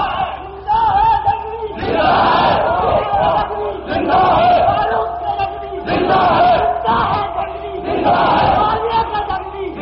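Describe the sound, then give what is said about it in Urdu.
A large crowd chants slogans in unison, loud massed voices repeating the same phrase in regular surges about every two seconds, each swell rising and then dropping back. “میرے بھائی نعروں پہ توجہ کم کیجیے”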